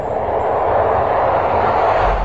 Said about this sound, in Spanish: El vuelo 28M tiene permiso para despegar. El avión acelera por la pista.